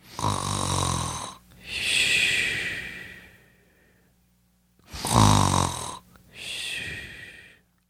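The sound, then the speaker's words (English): A man snoring through two full breaths, each a loud, rough, low rattling intake followed by a long hissing exhale, with a quiet pause between the two cycles. “I know, it's pretty ugly, but that is me snoring.”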